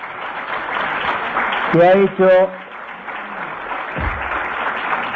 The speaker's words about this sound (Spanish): Chazarreta, un aplauso para el jefe